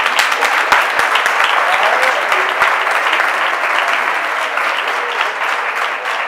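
Audience applause at a carnival comedy show, a dense, steady wash of clapping hands that holds loud and even for several seconds with scattered sharper claps.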